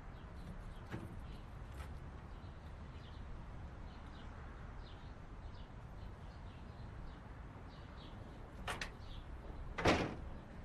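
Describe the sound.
A door being opened: a few faint clicks and knocks over a quiet, steady hiss, followed near the end by a louder, sharp thump.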